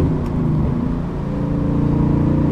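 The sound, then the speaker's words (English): A car engine droning loudly and steadily at mid revs just after a downshift from about 2400 rpm while driving along a road, a continuous low, rumbling hum with no talk. “Still at 2400 RPM. Let me downshift here.”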